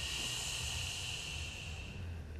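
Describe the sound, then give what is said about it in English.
A long exhaled breath during a power vinyasa yoga flow, heard as a soft, steady hiss that holds evenly for the whole stretch, quiet and alone. “Wherever you are in your cycle of breath, start to turn it into an exhale, get empty.”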